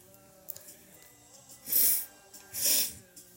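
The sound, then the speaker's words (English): A person snorts twice, two loud, airy bursts of breath through the nose separated by a short pause, with quieter breathing before them. “I say that as I fucking snort”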